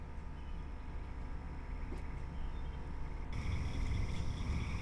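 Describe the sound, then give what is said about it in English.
A night chorus of calling frogs, some giving clicking calls, forms a faint, steady, continuous texture with thin high tones threaded through it. The chorus grows slightly louder partway through and then holds at that level. “we started hearing these different frogs. This was like maybe an hour and a half after we started. So if you notice, there are sort of a clicking sound,”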